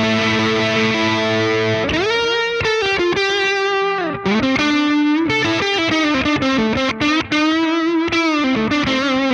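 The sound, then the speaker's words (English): Slide guitar played through a Carbon Copy delay pedal with slight modulation: loud, sustained, gliding notes that slur up and down in pitch, with a continuous, full tone throughout. “So you're not really hearing the repeats until I stop playing, and it's just nice. With slide, the Carbon Copy is like the best. It's so good. It just fills in the sound, and I have some slight modulation on it,”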